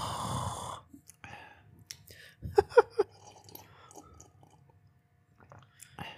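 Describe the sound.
Sips and swallows of water from a glass taken right at the microphone, a handful of soft wet clicks and gulps clustered mid-clip, faint and close, with quiet breathing around them.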